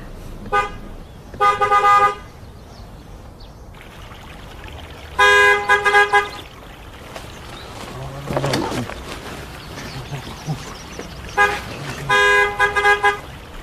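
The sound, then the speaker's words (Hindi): A car horn honks to get a gate opened: three loud, bright bursts of honking, some broken into quick repeated toots, over a steady background rumble. “Horn बजाकर gate खुलवा दो”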